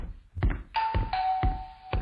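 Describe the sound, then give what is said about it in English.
A doorbell rings as a sustained buzzing tone of about a second, with a few regular low thumps beneath it and no talk. “This fucking guy keeps ringing the doorbell.”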